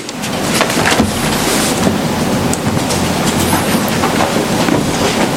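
A train running on rails gives a loud, continuous rumble with a dense wash of clatter and hiss that holds steady throughout, with no voices.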